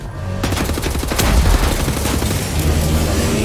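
A robot explodes in the video game Wolfenstein: The New Order: after a brief quiet moment a sudden loud blast erupts, followed by dense crackling, rattling and rumbling that continues to the end.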